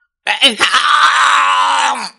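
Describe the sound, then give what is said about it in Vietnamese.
A man lets out a furious, unwilling roar: a single strained cry of about two seconds that breaks in with a jolt, holds loud and rough, then tapers away. “Quốc sư trơ mắt nhìn nguyên rỗ phản phệ phát ra một cái tiếng gầm thét không cam lòng.”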